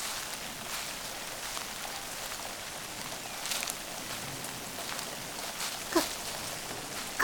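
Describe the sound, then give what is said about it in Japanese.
Steady, long-lasting rain giving a soft continuous hiss, with a few slightly sharper taps and spatters rising briefly above the wash. “この辺りの雨は結構長引くんですよ。雨が上がったら元いた場所まで送ってあげますから。”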